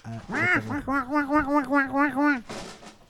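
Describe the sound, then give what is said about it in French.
A voice imitates a duck quacking as a background sound effect during a duck-dance song, giving a quick run of rhythmic, nasal quacks that wobble in pitch, loud and alone. “C'est la danse des canards qui en sortent de la mare, se secoue le bas des reins en faisant coin coin.”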